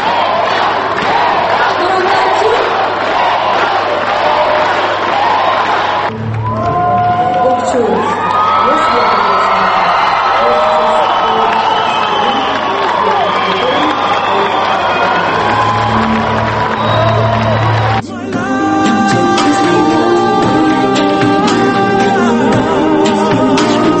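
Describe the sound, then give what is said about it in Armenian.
A crowd in a hall cheers, shouts and whoops during a tense competition. The noise stays loud and continuous for the whole stretch, shifting in character a few times. “Միայն դահլիճում հնչող ծափահարություններից կարելի էր դատել, թե որքան լարված է պայքարը։”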